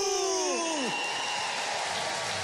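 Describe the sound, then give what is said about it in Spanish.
Applause from a standing audience at the close of a night at a folk music festival: a dense, steady roar of clapping from start to end, with brief falling whistles early on. “Reciban el cariño de su público, de pie, aplaudiendo, entregándole el cariño, el reconocimiento de nuestro símbolo,”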